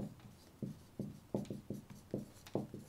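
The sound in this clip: Someone writes an equation on a board, making many short, quiet scratching strokes in an irregular rhythm, each a brief tap-and-drag with small pauses in between.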